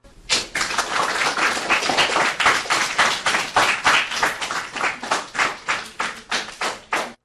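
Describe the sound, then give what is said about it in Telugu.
Rhythmic applause for the pupils of Paramita High School after their performance: many hands clap together in unison on a steady beat, with sharp, evenly spaced claps that carry on alone for several seconds before stopping. “చక్కటి కదంబ కార్యక్రమాన్ని వినిపించిన Paramitha high school చిన్నారులందరికీ అభినందనలు, అలాగే జయజయలు కూడా చెప్దాం.”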